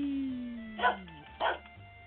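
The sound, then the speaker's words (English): A dog barks twice in short, sharp bursts about half a second apart, moderately loud over a quiet background hum. “You're just in time to get your barks.”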